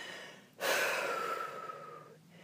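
One long, heavy breath of someone catching their breath after exertion. It opens with a sudden airy gasp, then a drawn-out, breathy exhale that slowly fades, heard alone without talk.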